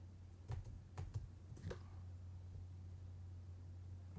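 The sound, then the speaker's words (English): A short run of several quiet keystrokes on a computer keyboard while typing a search, clustered in the first two seconds and followed by only a faint steady hum. “No, type in robot pricing in store. Pricing robot.”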